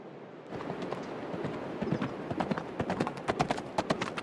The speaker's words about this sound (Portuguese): Bom, agora ande a meio galope.